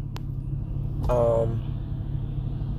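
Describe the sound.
A car being driven, heard from inside as a constant low engine and road hum, with a person speaking briefly over it.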